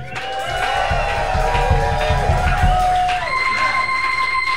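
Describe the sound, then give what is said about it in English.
An audience cheers and whoops at a holiday live show in a club. The crowd noise is sustained and fairly loud, with high sustained whoops or whistles running through it. “We have a live audience, as you heard. Audience, feel free to make some noise for the listeners out there.”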